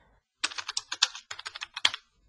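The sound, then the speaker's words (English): Typing on a computer keyboard during online study: a quick, irregular run of many crisp keystrokes in two bursts, heard alone without talk. “I think I'll just type that in.”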